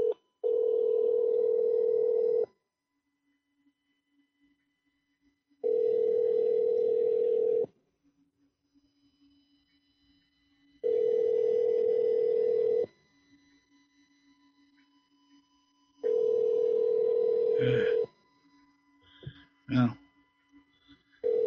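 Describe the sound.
Ringback tone of an outgoing telephone call ringing on the line: four long, steady, low-pitched ring bursts of about two and a half seconds each, separated by silent gaps of similar length, with a couple of brief clicks near the end.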